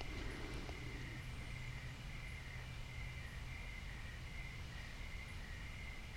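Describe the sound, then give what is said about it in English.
Crickets call in the evening outdoors in nature, a faint, steady, high-pitched trilling chorus that runs continuously with no other sound standing out. “where you can hear the crickets calling in the evening”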